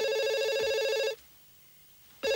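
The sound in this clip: Telephone ringing on New Year's Eve: a loud, shrill, buzzing ring lasting about a second, a short silence, then the next ring starting abruptly.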